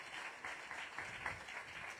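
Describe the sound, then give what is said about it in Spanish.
Faint applause from a group clapping together for a student, a steady patter of hands throughout. “para que todos te veamos y te podamos aplaudir? Muy bien, un aplauso para Agusti”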